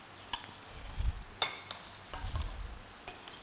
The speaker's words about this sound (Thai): เขี่ยให้มันแยกออกจากกันนะคะแล้วก็ใส่เห็ดฟางนะคะใส่ลงไปเลย